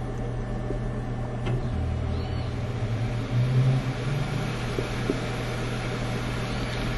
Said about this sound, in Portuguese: Como vocês podem notar pelo ruído da máquina, o CD começou a girar em altíssima velocidade.